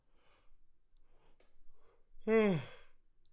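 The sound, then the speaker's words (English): A person yawning: one drawn-out voiced exhalation with a falling pitch, loud against a quiet background of faint rustles and clicks, lasting about half a second. “Had to take a quick yawn break. I apologize.”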